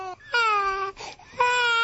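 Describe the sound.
Hungry infants crying in a couple of drawn-out, high, tonal wails with a short sobbing, whimpering catch between them, fairly loud and with no other voices.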